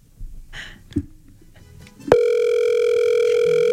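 A telephone line tone on an unanswered call cuts in abruptly about halfway through, after low background noise, then holds loud and steady at one constant pitch to the end.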